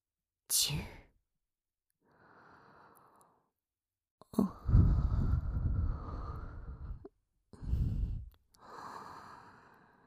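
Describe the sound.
Hot breathing close to the ear: a few breaths of varying length, some soft and airy, others loud and rushing, with brief silences between them.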